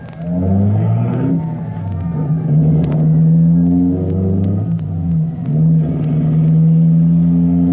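A fire engine drives up a hill with a loud, continuous engine roar. Deep rumbling tones rise and fall in pitch as it labours and revs, and no voices are heard.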